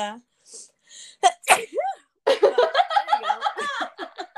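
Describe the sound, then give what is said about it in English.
One sharp, explosive sneeze preceded by a few short breathy sounds, then a long run of rhythmic, pulsing laughter. “Listen, you got to be careful sneezing.”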